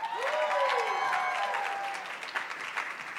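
An audience applauds as a panelist is welcomed on stage at a business summit. Dense, steady clapping is loud at first, then thins and fades over about three seconds.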